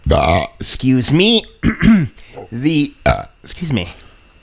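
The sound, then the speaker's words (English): Belching after drinking Pepsi, a rapid string of many loud, deep, throaty belches with rough, voiced tones, each cut off by brief pauses. “These belches are courtesy of Pepsi.”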